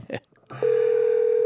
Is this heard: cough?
no